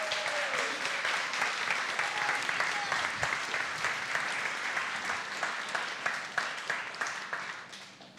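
Audience applause welcomes four children coming up to be interviewed at a gathering: dense, even clapping throughout that thins and fades near the end.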